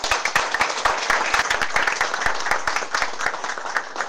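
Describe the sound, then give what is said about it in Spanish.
Applause from an audience at a speech in the capital of Venezuela: dense, steady clapping with sharp individual claps standing out, continuing loudly throughout without any talk. “para quienes yo pido fuerte aplauso.”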